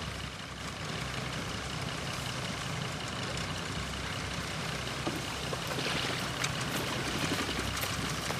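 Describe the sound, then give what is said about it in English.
A motorboat travels down a river, giving a continuous, even rushing drone of engine and water noise with no clear breaks. No voices are heard. “Sometime later, the motorboat sets off back down the river.”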